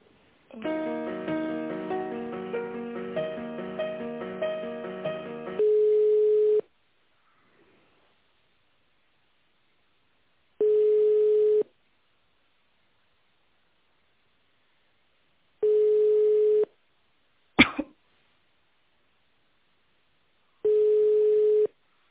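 Ringback tone on a telephone line while a call is transferred. A stretch of tinny, melodic hold tones gives way to four even, one-second buzzing rings spaced about five seconds apart, with a sharp click between the third and fourth.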